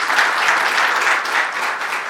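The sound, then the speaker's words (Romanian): A conference audience in Sibiu applauds a newly introduced chef with a loud, dense burst of clapping from many hands that eases slightly in the second half. “Cezar Munteanu, domnilor și domnilor, vă rog să-l aplaudați!”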